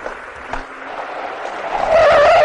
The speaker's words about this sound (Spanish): Se dispone a cruzar una carretera, pero un coche casi lo atropella.